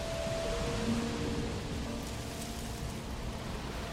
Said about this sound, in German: Ein Sturm zieht auf. Es riecht nach Regen. Wie wild sie rauschen, die Bäume.